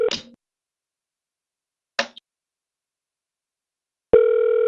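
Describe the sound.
Telephone ringback on an outgoing call to a hotel: two short ring bursts separated by silence, then a steady held tone begins near the end, with no talking.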